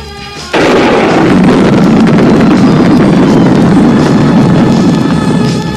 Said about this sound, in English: That's right, kids. Once it's lit, only compression is needed for detonation.